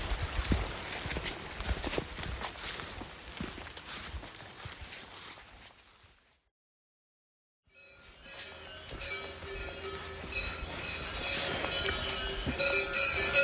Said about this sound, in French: Et là, à côté de moi, il y a un troupeau de vaches avec leurs clochettes,